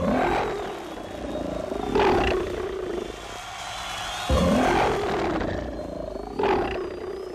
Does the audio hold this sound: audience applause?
no